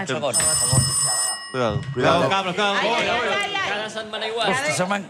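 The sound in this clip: A telephone rings in one bright electronic burst of about a second, with voices talking before and after it.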